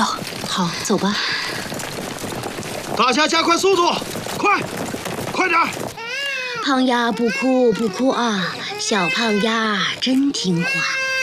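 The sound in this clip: Baby crying in loud, wavering, high-pitched wails that run almost continuously, mixed with an adult voice talking soothingly.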